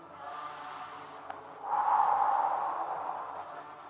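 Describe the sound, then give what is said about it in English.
A person exhales slowly through the mouth, a soft airy rush that swells after a quieter stretch and then gradually fades. “Now inhale and exhale through the mouth, yeah?”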